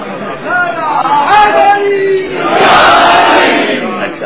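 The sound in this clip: A crowd shouts the Naara-e-Haidri religious slogan. A single voice calls out first, then a loud, massed shout of many voices swells and holds through the second half.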